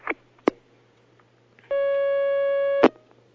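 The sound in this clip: A telephone line tone sounds as a caller is connected: one steady electronic tone lasting about a second, framed by a few sharp clicks on the line, with no talking.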